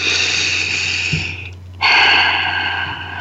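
Breathing in: two long, airy breaths separated by a short pause, the second one louder, over a low steady hum.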